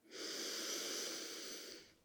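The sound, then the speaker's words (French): A deep inhalation taken after fully emptying the lungs in a relaxation exercise: a smooth, steady airy hiss lasting about two seconds, rising quickly at the start and tapering off at the end. “Si vous êtes prêt, videz bien vos poumons. Inspiration profonde.”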